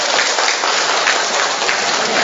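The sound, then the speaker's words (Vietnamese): Applause welcoming a man introduced to speak: dense, continuous clapping from a group, loud and steady throughout with no voices over it. “Rồi còn chúng ta cho một tràng pháo tay chào mừng một người anh em.”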